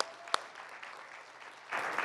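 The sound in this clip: An audience applauds to welcome a speaker, with a steady, fairly soft clatter of clapping and one sharp clap early on. The applause swells louder near the end.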